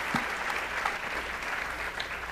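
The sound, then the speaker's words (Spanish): Applause from a church audience for pastors at a service: steady, dense clapping that holds at an even level from start to finish, with no voices over it. “Give these pastors one more round of applause. Así que vamos a darle a estos pastores una vez más un aplauso.”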